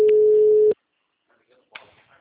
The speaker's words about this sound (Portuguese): Ligando pra ele pra fazer o áudio.